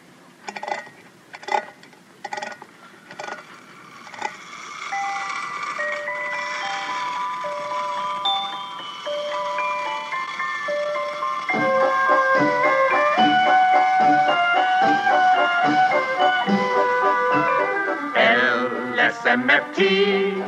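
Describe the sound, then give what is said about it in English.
A wind-up toy merry-go-round spins while playing a tinkling music-box tune of bright, ringing notes. A few sharp clicks open it, the melody grows fuller and denser midway, and more clicks come near the end. “Well, see, it's a little toy merry-go-round. Well, what do you want that for? Well, now, here, let me show you. First, you wind it up, and then you release the lever, and it spins around and plays music.”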